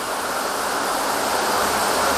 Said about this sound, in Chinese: 考察队由巨大的落水声判断，前方应该是一道洞穴瀑布。